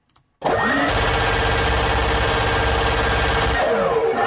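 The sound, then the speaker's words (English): A minigun sound effect starts abruptly with a rising whine, then holds a loud, steady mechanical whir and rumble for about three seconds before winding down. “Yes, I am going to spin up the minigun in 3, 2, 1.”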